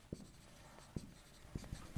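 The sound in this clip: Faint scratching of a pen writing and drawing a diagram by hand, with a few light taps as strokes begin, quiet throughout.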